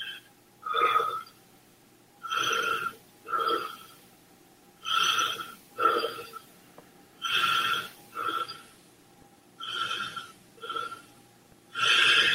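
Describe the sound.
Deep, rhythmic breathing during a meditation session with a mantra: many audible inhales and exhales come in a steady, repeating cycle, each a soft, airy rush. They are fairly clear, and nobody speaks.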